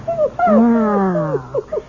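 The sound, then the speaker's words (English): Whining, whimpering vocalizations come from Attila, a dog in a radio drama: a few rising and falling tonal whines that are sometimes drawn out, with short yips near the end. “We can't have you tied up, can we, boy? We can't play our little game if you're tied up. Yes, yes, that's a good dog. Good, good boy, Attila.”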